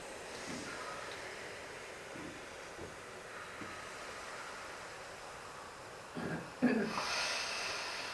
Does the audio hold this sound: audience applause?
no